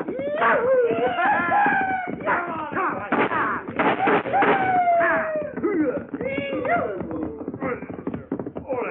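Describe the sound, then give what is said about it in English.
A man howling like a cougar in Texas: loud, drawn-out, wavering yelps and wails that repeat many times without pause, with other voices mixed in. “hear the cougar howl tonight”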